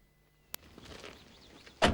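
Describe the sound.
Car doors on a sheriff's car as a uniformed sheriff and deputy get out: a sharp single click, a quiet stretch, then a louder, heavier thud of a door.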